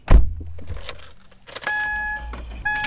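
Car sounds on a morning drive through the suburbs: a thump and jangling keys, then a low engine rumble with a steady electronic tone that breaks off and returns.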